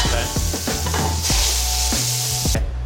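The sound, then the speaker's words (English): Food sizzles loudly as it is laid into a hot pan, a steady crackling hiss with several clinks and scrapes of utensils on top. “You're gonna hear it sizzle, just like that. Never gets old.”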